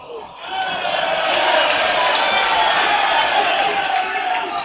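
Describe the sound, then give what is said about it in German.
Roar of a football stadium crowd during the second half of a match, with scattered applause; it swells up from a quieter start into a steady, broad wash of noise. “ja und noch weiterhin Applaus an der falschen Stelle.”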